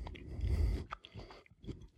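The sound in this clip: Crunchy chewing of firm, large green olives during a tasting, loud and dense at first, then settling into quieter, separate bites and squelches.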